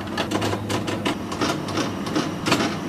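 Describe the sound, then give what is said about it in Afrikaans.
A printer prints a label onto a CD, giving a steady mechanical whirr broken by a rapid series of rhythmic clicks and knocks that continue throughout without any talk. “Die eerste een is 'n benaming en titel wat nou besig is om te druk.”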